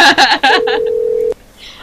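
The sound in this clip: Telephone ring tone, a single steady mid-pitched tone of under a second that starts while a person is talking and cuts off abruptly, leaving quiet background.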